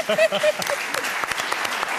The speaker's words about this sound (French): Vous pouvez l'applaudir.